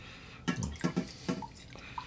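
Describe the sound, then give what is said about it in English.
Water is splashed into sauerkraut in a few short, faint gurgles and drips. “I think I need a little juice. A little water to be safe, yeah.”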